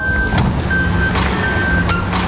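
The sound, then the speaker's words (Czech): A garbage truck running on a street in Opava gives a steady, moderately loud engine rumble with a faint high whine, unchanging throughout. “Popelářské auto na ulici, i tady v Opavě je každodenní věc.”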